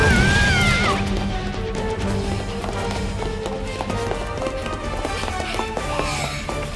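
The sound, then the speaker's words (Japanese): Rapid footsteps of people running, a dense, steady patter of quick steps throughout, with tonal sounds layered over them. “こっちはまだ走ってるんですけど。”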